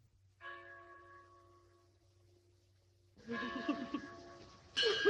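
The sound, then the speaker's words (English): A single bell carried on a staff by a priest at a graveside burial rings out with a clear tone that slowly fades, followed by louder, broader sounds. “A priest carrying a bell on a staff.”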